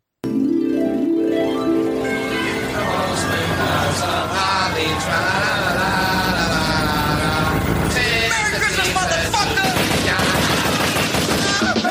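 Rapid bursts of gunfire, as in a drive-by shooting, crackle over dense, loud music that runs without a break for the whole stretch.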